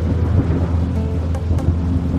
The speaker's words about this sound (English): The little island of Otochich Sveti Ivan was caught in a tempest. A tempest is a really big storm.